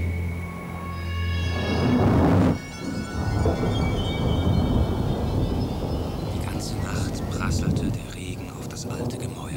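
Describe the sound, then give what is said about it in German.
Rolling thunder sounds as a deep, continuous rumble. It swells loudest in the first couple of seconds, then keeps grumbling steadily at a lower level. “Donner grollte fortwährend.”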